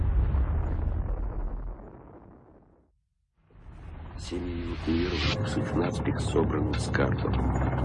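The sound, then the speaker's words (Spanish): A hydrogen bomb test explosion of about ten megatons rumbles as a deep, heavy roar that fades to near silence. A second loud roaring surge then builds, full of crackling bursts and pops. “La potencia de la explosión es similar a la de 10 millones de toneladas de TNT. Es 600 veces más potente que la bomba que destruyó Hiroshima.”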